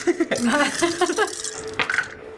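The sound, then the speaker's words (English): A handful of damage dice are scooped up during a tabletop role-playing game, giving many quick clicks and light rattles as the dice knock together, some with short ringing tones. “Oh god, my hands are just too small to hold all of these damage dice.”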